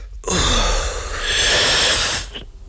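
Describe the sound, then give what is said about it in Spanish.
A person draws in one deep, loud breath from a lit pipe, a breathy rushing inhale that lasts about two seconds, then stops into near silence as the breath is held. “Inhala cuanto puedas y manténlo todo lo posible.”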